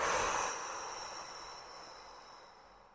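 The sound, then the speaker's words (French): A strong exhale through the mouth during a relaxation breathing exercise, a soft, breathy rush that starts at its strongest and slowly trails away over a few seconds. “prenez une profonde inspiration par le nez en gonflant bien la poitrine et le ventre. Puis soufflez fortement par la bouche.”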